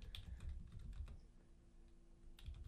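Typing a message on a computer keyboard: many soft, irregular key clicks, faint throughout, with no voices.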